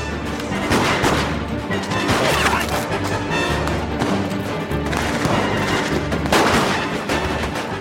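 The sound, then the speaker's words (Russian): Dense gunfire from a pistol shootout in a film scene, with rapid overlapping shots and crashing impacts throughout over a low droning background. “Стреляет Гоцман, оперативники, солдаты. Кречетов, старательно целясь, стреляет по бандитам из пистолета.”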